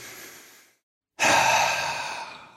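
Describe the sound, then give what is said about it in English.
Big deep breath taken during a guided calming exercise: a soft airy breath fades out, then after a brief silence a much louder, longer rush of breath slowly tails away. “the first thing that I'm going to invite any listener to do, and even us in this moment, is to take a big deep breath”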